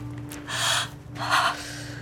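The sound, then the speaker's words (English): A woman gasps for breath after her ribs are broken, drawing two harsh, airy intakes in quick succession over a low, steady hum. “She struggles to breathe. Yeah. That sounded like it hurt.”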